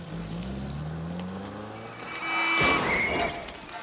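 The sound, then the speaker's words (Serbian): A taxi engine runs and pulls away, its low rumbling hum rising steadily in pitch as the car accelerates, then a louder, noisier surge swells near the end. “Taksista pali motor i kreće.”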